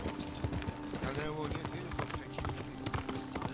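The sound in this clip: Horse hooves clip-clop in a video game, a quick, steady run of hoofbeats that continues throughout, mixed with other game audio.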